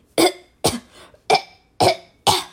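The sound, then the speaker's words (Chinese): Five sharp, evenly spaced coughs, each a loud rough burst separated by short silences. “她深深吸了一口大气，又咳了好几声。”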